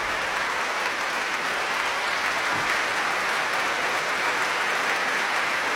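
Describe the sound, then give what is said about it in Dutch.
Concert audience applauding a trio after a classical triple concerto, a sustained, even wash of many hands clapping that holds at a steady level throughout. “Bravo geroep hier. Voor het prachtige trio.”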